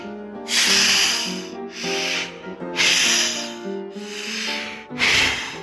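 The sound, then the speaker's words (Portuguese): A condom is inflated like a balloon by mouth: several long, breathy blowing puffs of air with a rubbery rustle. The breaths come in a steady rhythm with short gaps between them, and tonal background sound sits underneath. “Vou pegar essa aqui que já tá aberta e vou encher para vocês verem.”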